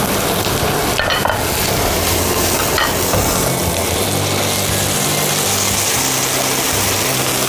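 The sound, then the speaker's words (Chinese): Deep-frying food until crisp on the outside gives a loud, steady, dense sizzle that runs without a break from start to finish, with no voices over it. “这次是要让它炸到 外面酥脆， 酥脆，同时不吃油。”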